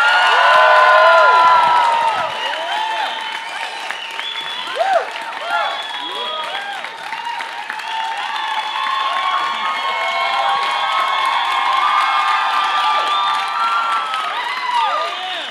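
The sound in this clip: Cheering and applause from a live theater audience at the Bell House in Brooklyn, loud and sustained throughout, with whoops and shouts rising over steady clapping.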